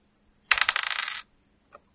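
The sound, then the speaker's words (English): A six-sided die rolled on a table during a tabletop roleplaying game gives a quick, bright clattering rattle lasting under a second, followed by one faint tick as it settles, with no voices. “Roll a d6.”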